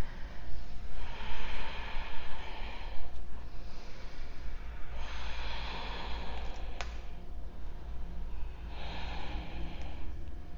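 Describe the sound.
Ujjayi breathing during yoga practice: slow, hissing breaths rise and fall in a steady rhythm, a few seconds apart, over a constant low hum.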